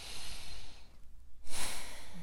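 A slow deep breath in a calm guided reflection, heard as two soft, airy rushes of breath separated by a short quiet pause.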